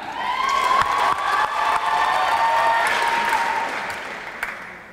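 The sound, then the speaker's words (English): Audience applause for a poet at a spoken-word event as the next performer is welcomed to the stage: dense, steady clapping from a crowd that holds for several seconds and eases off slightly toward the end. “Applaud the poet. And please put your hands together and welcome to the stage the next poet”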